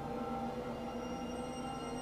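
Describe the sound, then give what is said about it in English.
A freight elevator running: a steady, continuous mechanical drone with a thin high whine layered on top, unchanging throughout and fairly quiet. “Freight elevator.”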